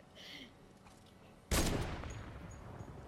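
Gunfire in a video game: a sudden loud, sharp burst of shots breaks a quiet opening, then trails off into a long, noisy decay.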